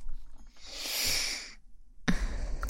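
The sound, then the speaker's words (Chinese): Breathing: one long, airy breath swells and fades, then a short silence, then another noisy breath begins, soft and close-sounding, with no talk. “还有呼吸的声音。”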